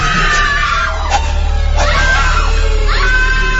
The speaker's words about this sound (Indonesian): dari kejauhan terdengar suara teriakan perempuan. Perempuan itu berteriak seperti kesakitan.